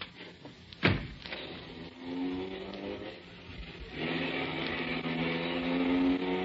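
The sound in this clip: A car driving off: a sharp thump, then a steady engine drone that grows louder and hums on to the end, with no talk.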